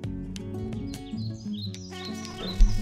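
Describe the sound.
Call of the thorn-tailed rayadito, a small bird of forest and shrubland: quick, high chirps and short trilling notes repeat in bursts over low sustained tones.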